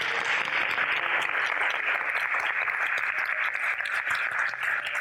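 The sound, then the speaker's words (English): Theatre audience applause at the AMI Theatre during the Oxfordshire Science Festival, a dense, sustained wash of clapping that stays steady and loud throughout. “I'd love you to give a huge round of applause and thank you to our guests.”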